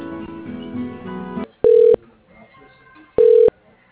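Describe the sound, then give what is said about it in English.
A phone call being transferred to voicemail: a softer tonal passage gives way to two loud, steady electronic tones of equal length, separated by a short quieter gap. “Can I transfer you over to his voicemail so he can reach out to you after? That would be perfect. Thank you so much. Please hold.”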